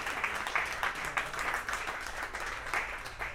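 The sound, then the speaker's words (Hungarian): An audience applauds a guitarist introduced on stage at a band's concert, a dense, steady patter of many hands clapping that holds at an even level throughout. “egy nagy tapsot neki,”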